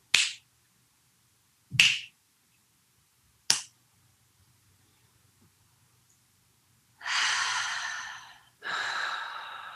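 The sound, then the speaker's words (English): Fingers snapping three times, evenly spaced sharp clicks about two seconds apart, followed after a quiet pause by two long breathy exhales. “So let's snap the fingers 3 times.”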